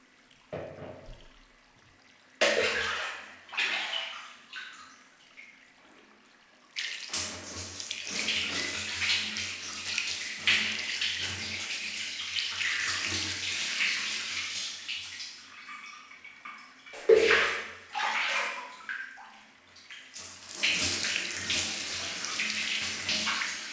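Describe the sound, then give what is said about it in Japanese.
Water rinsing shampoo out of hair at a salon: a steady rushing, splashing stream, broken by a few short gaps where the flow stops and restarts, then continues at an even level with a low hum beneath. “じゃあお流ししますね。目をつむって軽く下を向いてください。”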